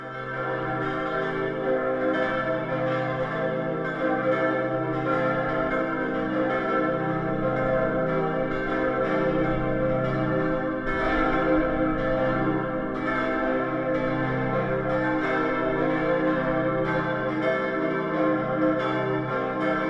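Church bells of a pilgrimage church on the Hohe Peißenberg ring for the entry into the church, several bells overlapping in a dense, continuous, loud peal with steady clanging strokes throughout.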